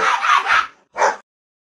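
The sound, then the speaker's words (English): Dogs bark in a house while being fed dinner. A quick run of sharp, short yelping barks is followed by one more bark after a brief pause, then silence. “you'll hear our dogs in the background”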